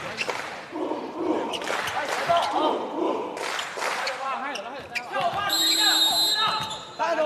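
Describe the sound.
A volleyball is struck in a hard left-handed jump serve by a setter at a school match, heard as sharp thuds amid crowd noise while a commentator talks throughout.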